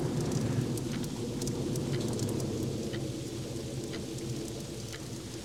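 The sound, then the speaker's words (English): Rain and thunder from the sad, dramatic intro of a 1980s rock ballad music video: a loud, continuous hiss of falling rain over a deep, steady rumble, with no voices. “Oh, and thunder.”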